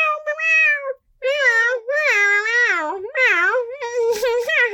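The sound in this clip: A cat meowing in several long, drawn-out calls that waver in pitch, loud and alone, with brief pauses between them.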